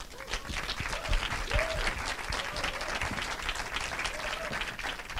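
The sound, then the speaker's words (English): Audience applause as guests are welcomed onto a stage: dense, steady clapping from many hands, sustained evenly for the whole stretch with no clear voices. “Can you put your hands together and welcome to the stage”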